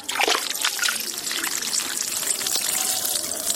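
Water trickles and splashes in the pools and fountains of a large tree-lined garden. The flow is a continuous bright babble with small splatters scattered through it and no pauses.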